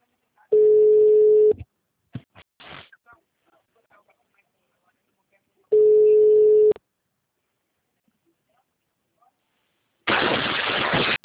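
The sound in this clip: Telephone busy tone after a dropped call: two long, steady, mid-pitched beeps separated by several seconds of near silence with faint scattered clicks. A burst of harsh noise follows at the end.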